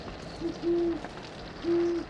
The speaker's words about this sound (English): including that silent terror that comes in the night, the great horned owl.